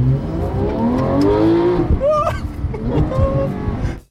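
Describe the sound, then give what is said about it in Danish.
A car engine drives and accelerates, its note climbing steadily in pitch over the first couple of seconds, then shifting and continuing loudly and steadily to the end. “Jeg har prøvet at sammenligne lyden af mig, der kører, og Michael, der kører. Det her, det er mig.”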